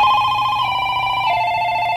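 Steady electronic telephone ring sounding in a phone-in quiz to signal a caller with the right answer, a continuous bright tone that holds throughout and steps slightly lower in pitch partway through.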